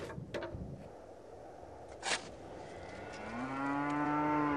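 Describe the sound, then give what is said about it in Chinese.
Thin, bony cattle low on the Urad grassland: a few faint clicks and a brief rustle, then a single long, steady moo that swells louder and holds to the end. “瘦骨嶙峋的牛羊靠着草料勉强生存”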